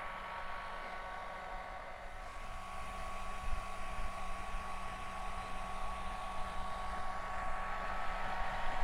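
A hair dryer blows steadily while drying an animal's fur, moving from the rear to the belly and back: a continuous airy whoosh with a thin high whine that grows slightly louder partway through.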